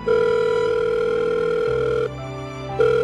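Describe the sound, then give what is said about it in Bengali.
A mobile phone call rings unanswered with a loud, steady electronic tone held for about two seconds. The tone drops out briefly, then resumes. “পিয়ালির ফোনটা বেজে বেজে থেমে গেল, কেউ ধরল না।”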